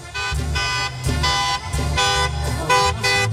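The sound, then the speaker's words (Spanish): A car horn honks repeatedly on a city street, about four loud, steady blasts separated by short gaps, over a low rumbling drone. “qué escándalo traemos aquí en Ruiz Cortines, pita”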